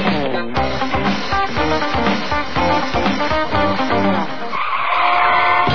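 Loud tire screeching from a car skidding, a shrill, sustained squeal that runs for about five seconds, its tone shifting near the end.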